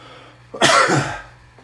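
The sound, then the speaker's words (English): A single sharp sneeze bursts out, loud and breathy, lasting about half a second, with no talk around it. “pardon me, that sneeze had to come”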